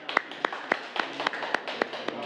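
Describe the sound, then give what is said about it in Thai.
Children clapping for their classmates in a class, about nine sharp, evenly spaced claps in a steady rhythm, moderately loud over a faint background murmur. “เก่งมากค่ะกลุ่ม5ปรบมือให้เพื่อนลูก”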